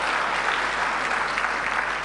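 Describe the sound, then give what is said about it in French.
Audience applause, thick continuous clapping that stays loud and even throughout, with no break or fade. “applaudissez s'il vous plaît”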